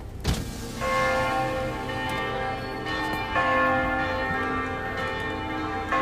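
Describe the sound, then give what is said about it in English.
Cathedral bells ring out in rich, sustained metallic tones, with several strikes overlapping so each chime swells and lingers into the next, loud and unbroken by talk. “then now the bell just rang. The cathedral bells.”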